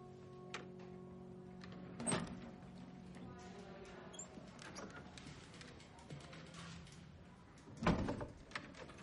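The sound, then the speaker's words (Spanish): An office door being closed: two faint, sharp thuds several seconds apart over a quiet, soft background. “Cierra la puerta.”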